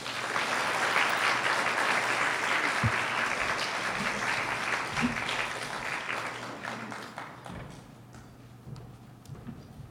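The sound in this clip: An audience claps to welcome a speaker to the stage, a dense, steady round of applause that thins out and fades over the last few seconds.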